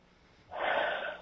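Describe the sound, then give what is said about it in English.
A single deep breath drawn after a moment of quiet, a loud, breathy rush that swells quickly and holds steady for most of a second. “Take a deep breath.”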